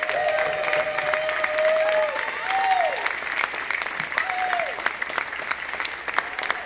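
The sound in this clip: A church audience stands and applauds to welcome speaker Leif Hetland, a dense, steady patter of clapping that holds throughout, with a voice briefly heard over it.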